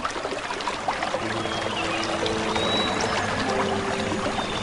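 A gentle brook flows with water streaming steadily, a soft, even rushing and trickling that carries on unbroken from start to finish at a moderate level.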